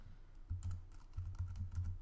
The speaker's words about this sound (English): It creates code 10 bear. So if I just type that in,